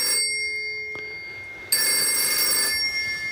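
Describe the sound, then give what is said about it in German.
A telephone rings with steady electronic tones that hold level, then grow louder and brighter partway through and keep going to the end. “Ihr seht, das ist ein Telefon.”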